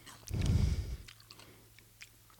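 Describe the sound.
Chewing a paprika-flavoured snack: a loud burst of crunchy bites, then quieter, fainter mouth sounds.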